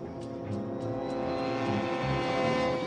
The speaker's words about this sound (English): The chopper lifts off out of the camp and flies away.